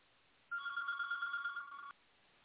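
An electronic telephone ring from an incoming call sounds once as a warbling, steady, mid-high tone lasting about a second and a half, then cuts off abruptly into quiet, with no talking.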